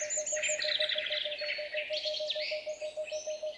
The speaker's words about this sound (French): Alors doucement, une chouette de tengmalme s'installe. Tengmalme boréal, pour être précis.